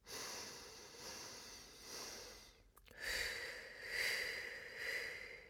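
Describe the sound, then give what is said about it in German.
Slow breathing in and out during a guided counting exercise: several soft, faint breaths swell and fade in an unhurried rhythm, heard alone without any talking. “Ich atme ein und zähle erstmal bis drei. Ich atme aus und zähle auch bis drei.”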